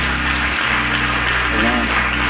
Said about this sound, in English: So I applaud you, you winners. I applaud you.